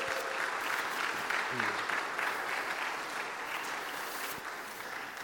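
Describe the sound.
Sustained audience applause welcomes two guests at a gathering, a dense, steady wash of clapping that holds at an even loudness for the whole stretch.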